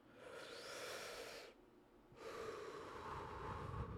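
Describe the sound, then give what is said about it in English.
Breathing in and out: a soft, airy breath lasting about a second and a half, a brief pause, then a second longer breath. The breaths are faint, with no talking. “We're gonna breathe in, breathe out. Ready? One, two, three.”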